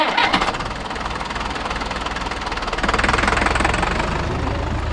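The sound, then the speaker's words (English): A manure spreader's engine runs steadily, a loud, continuous mid-pitched drone with a rough knocking texture. It holds an even level throughout and swells slightly partway through, with no voices. “I can smell the manure coming out of the manure spreader right now.”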